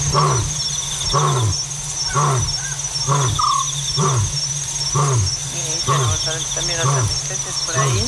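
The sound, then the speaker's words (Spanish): Hyenas and an African scops owl call at night: low, repeated whooping calls come in a steady rhythm, with a short purring trill higher up, all over a constant high insect buzz. “sobre todo al principio se escuchaban unas hienas. Sí. Y luego ahí se, pues sí, que es un autillo. Ese tru es el autillo africano”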